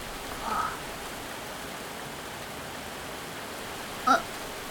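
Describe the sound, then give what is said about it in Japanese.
Steady rain falls while someone shelters from it, a continuous soft hiss that holds evenly throughout, with one short, brighter sound standing out near the end. “僕は30分くらい前からここで雨宿りしてます”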